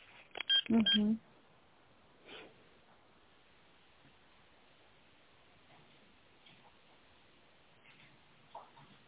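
Telephone beeps as a call is put through to an accountant: a brief cluster of loud, tinny tones at the start over a narrow phone line, then near silence with only faint, scattered noises.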